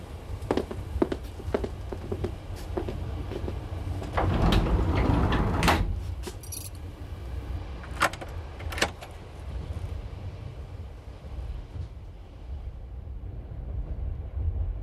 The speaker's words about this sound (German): Dann schließen wir jetzt hier ab und gehen zurück zu den anderen, in Miss Cartiers Abteil.